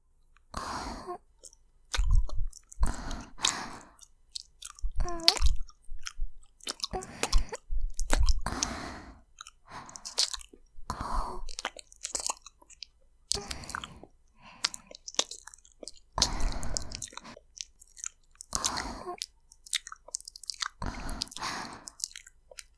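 Wet licking and mouth sounds on a face in a Japanese ASMR role-play, many squishy, smacking bursts in an irregular rhythm with short silent gaps, no talking.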